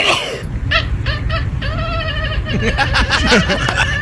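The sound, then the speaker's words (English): A cat makes a strange, chicken-like clucking noise right after its owner sneezes. Many short, strained calls come in quick succession and stay loud throughout. “This cat makes a weird noise after their owner sneezes.”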